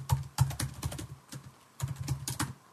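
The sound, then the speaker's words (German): Keys clicking on a computer keyboard while an email is typed, in two quick bursts of faint, irregular taps with a short pause between them and no talk. “Wir schreiben ihm eine E-Mail und eine Nachricht über Telegram.”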